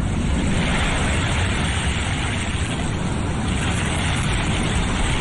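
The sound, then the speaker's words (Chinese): A conch shell held to the ear gives a steady, loud, ocean-like rushing hiss that stays even and continuous throughout, with no voices. “妈妈说，把海螺放在耳边，就能听到大海的声音。你听。”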